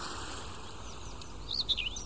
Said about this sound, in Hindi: थोड़ा और ध्यान लगाएंगे तो पंछियों के गीत और चहचहाहट भी सुनाई देगी,